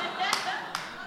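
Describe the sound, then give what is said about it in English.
Two crisp hand claps from a sleazy acting teacher standing to applaud a scene in acting class, spaced about half a second apart, sharp and fairly loud against a quiet background. “A sleazy acting teacher stands to applaud.”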